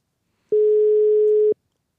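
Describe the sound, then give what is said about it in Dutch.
A telephone call ringing out, heard as a single steady mid-pitched ringback tone that lasts about one second at constant pitch and loudness, with silence before and after. “Kijken of die overgaat. En of deze persoon opneemt. Hij gaat over.”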